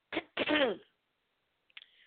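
A person clears their throat twice in quick succession, a short rasp followed by a longer, rougher one, and then a faint brief sound after a pause.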